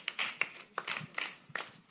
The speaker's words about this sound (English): Give a hand clap.